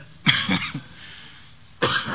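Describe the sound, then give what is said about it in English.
A person coughs: a quick run of three sharp coughs, then a short pause and one more cough, fairly faint and alone with no talk. “I don't know why I started coughing now, but God knows.”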